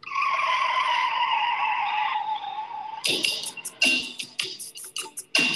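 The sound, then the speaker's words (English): Tires squeal to open a pro wrestling entrance theme. A long, loud, high screech holds for about three seconds, sinking slightly in pitch, and then gives way to sharp, punchy music hits with brief gaps between them. “That was one where like I heard the tire squeak and I was like, I thought the same thing.”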